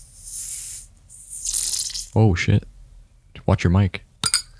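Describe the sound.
A freshly opened bottle of Topo Chico sparkling mineral water fizzing with a soft, airy hiss in two short stretches, followed by people talking.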